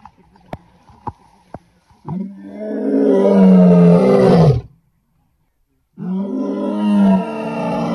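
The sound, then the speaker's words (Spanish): A lion roars twice in long, deep, loud bursts, the first swelling and holding for a couple of seconds before breaking off, the second starting after a short silence; three sharp clicks come before them. “O sea que Teresa, tú y el resto de viajeros escuchabais pues a un león como este, eso, dándonos buenas noches. Eso es lo que hacen los leones, luego rugen, luego pegan rugido, ¿no?”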